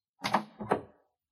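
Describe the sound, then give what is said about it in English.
A door opens with two short, soft bursts of noise in quick succession, the second following closely after the first, then silence. “Someone's coming. The door opens.”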